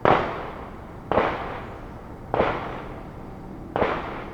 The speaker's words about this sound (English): So we're in Marietta Terrace, so we're literally like another fence line apart from us in the shooting range right now